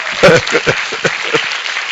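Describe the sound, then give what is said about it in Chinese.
A church audience applauds during a service with light, scattered handclapping, a handful of distinct claps spread unevenly over a brief, moderate stretch. “Amen， Hallelujah， 真的要鼓掌哦”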